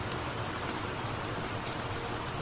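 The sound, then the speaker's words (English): Steady falling rain, a soft, continuous hiss of many drops that stays even throughout with no other sounds. “You are standing under this rain. Your body, mind, and soul is now standing in this rain”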